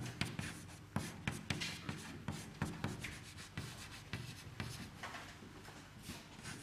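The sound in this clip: Someone writes out an equation by hand, making quiet scratchy strokes and many short taps in an irregular rhythm. No voices are heard.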